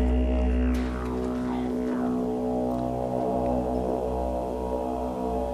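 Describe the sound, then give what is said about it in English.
A didgeridoo played over a phone call: a continuous low, buzzing drone with strong overtones, holding steady throughout with slowly shifting timbre and no break. “I think actually that would be really nice instead of this didgeridoo, because it's a little difficult also to hear this. If you turn down the didgeridoo.”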